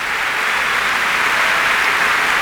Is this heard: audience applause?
yes